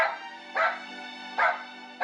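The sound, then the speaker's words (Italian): A dog barks on cue as it performs a counting trick: three short, loud barks spaced apart over a steady low hum, with no voices in between. “Scusi, ma non è che semplicemente l'ha addestrato ad abbaiare sempre 4 volte?”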